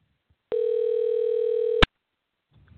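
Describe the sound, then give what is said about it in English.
A telephone dial tone plays while a guest is being called in to join a live chat. It is a single steady, even hum lasting just over a second, ending in a sharp click, with no voices. “So I'm going to attempt to call and dial in Chris and get him on the line”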